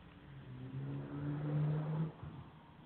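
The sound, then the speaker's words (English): A car drives past outside, its engine hum swelling to a loud peak, then dropping away sharply, with no talk over it. “these idiots are driving like maniacs out there. I sound like a car going by.”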